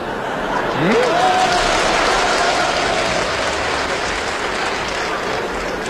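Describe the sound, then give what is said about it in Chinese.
Steady audience applause at a live crosstalk comedy performance, a broad, loud, continuous clapping that barely changes in level from start to finish. “同志们这一鼓掌就是寒碜你呢。”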